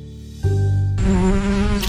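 Buzzing insects in a pest control ad make a continuous droning whine that jumps in pitch partway through. The sound is steady and fairly loud, with no voices.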